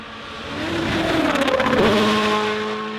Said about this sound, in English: The cars are going to be flying here in Finland.